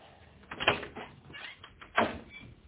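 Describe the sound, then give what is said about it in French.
Knocking on a hotel room door, two separate muffled bursts of taps with a quiet pause between them, heard over a thin, narrow-sounding background. “On frappe. Oui, tout de suite.”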